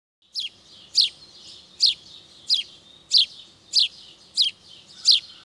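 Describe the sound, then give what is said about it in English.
House sparrows, a non-native invasive species using nest boxes in a field habitat, give eight sharp, bright chirps at a steady, fairly even pace. Each call stands clear and alone against a quiet background. “Sometimes these nest boxes are used by non-native and invasive species like house sparrows. They sound like this.”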